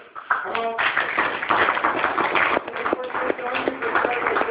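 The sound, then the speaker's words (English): A round of applause from the audience at a live show, a dense, continuous crackle of many hands clapping, with a voice speaking over it. “Big round of applause for the show.”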